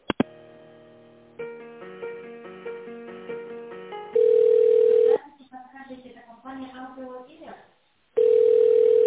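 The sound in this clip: Telephone tones while a call is transferred: a short electronic melody of stepped notes, then two long steady mid-pitched beeps with a stretch of muffled voice-like sound between them.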